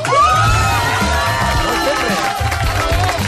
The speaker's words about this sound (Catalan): Sembla un públic yankee, d'aquells de late night yankees.